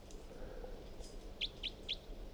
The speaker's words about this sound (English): So recording bird 362.